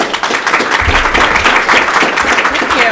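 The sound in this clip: Audience applause welcoming a guest speaker at a talk: a loud, continuous wash of many hands clapping that holds steady for the full three seconds.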